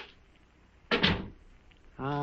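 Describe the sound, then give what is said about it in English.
A door swings shut into a crypt room with a short, fairly loud double thud, and a voice starts speaking a moment later. “Come inside and close the door.”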